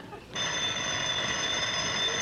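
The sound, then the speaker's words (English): A telephone ringing: a bright, buzzing electronic ring starts after a brief quiet moment and continues unbroken and fairly loud to the end. “Well, keep ringing, Sarah. I'm sure they're home.”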